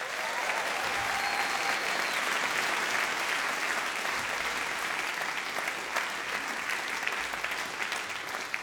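An audience gives the BBC Big Band a welcoming round of applause at a Christmas concert. Dense, sustained clapping holds at a steady level for the whole stretch without any fade.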